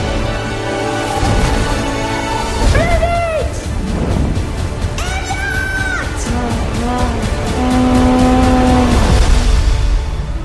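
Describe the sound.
A car roars through a chase with revving engine noise and squealing tires, loud and busy throughout, with shifting tonal whines layered over the driving.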